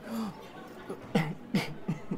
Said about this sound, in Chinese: 他一直咳嗽，整个人瘦到不像话